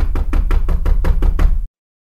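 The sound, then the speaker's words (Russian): Knocking on a house door: a rapid, evenly spaced series of many loud, solid knocks, alone and without voices, stopping abruptly into silence. “Выхожу с машины, подхожу к дому, стучу в дверь.”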